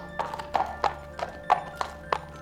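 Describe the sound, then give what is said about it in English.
Hoofbeats of a centaur trotting in a firelit cave: an even clip-clop of about seven sharp hoof strikes, moderately loud and heard alone. “Chiron trotted over to Hercules, the sleek fur of his hindquarters gleaming in the firelight.”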